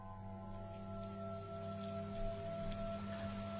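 Heavy rain with strong wind at night makes a steady, even wash of noise that holds throughout, with a faint low hum underneath and no voices.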